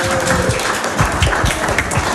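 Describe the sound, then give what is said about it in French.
Dense, steady applause from a quiz-game audience for a contestant who just scored a point, many rapid overlapping claps held at an even level throughout. “Un point supplémentaire, on peut applaudir Pierre. Bravo.”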